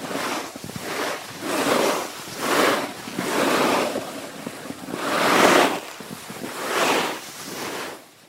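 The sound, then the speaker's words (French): Ocean waves crash against rocks in repeated slow surges of rushing, hissing water, each swelling and fading in turn over a constant low roar, with no voices. “le son qui me fait du bien, c'est le son des vagues, surtout les vagues qui s'échouent contre les rochers”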